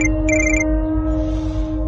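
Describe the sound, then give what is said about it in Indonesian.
A mobile phone rings at midnight: short, high electronic beeps sound briefly over a steady low hum, then stop. “aku dikagetkan oleh suara handphoneku yang berdering.”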